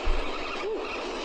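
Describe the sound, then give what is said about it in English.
Fishing line peeling off a spinning reel with braid running through the rod guides, a brief, steady hissing buzz heard faintly and alone. “There's nothing like the sound of line peeling off a spinning reel. And braid going through guides.”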